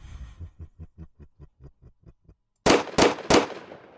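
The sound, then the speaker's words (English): Gunshots: many muffled low thumps in a steady rhythm, then a brief silence and three loud, sharp blasts in quick succession. “Damn it! Stop shooting! We're normal!”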